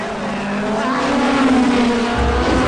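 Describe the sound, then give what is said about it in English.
Race cars accelerate at speed, Dom's car among them, their engines blending into a loud, continuous roar that holds steady throughout without a break. “Traveling at speed through the inner workings of Dom's car, then flying out of the exhaust. The racers accelerate.”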